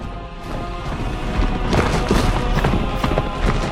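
A horse rising out of the earth as its terracotta shell shatters: a dense, continuous crashing and crumbling rumble with scattered sharp impacts, growing louder after the first second and staying loud to the end.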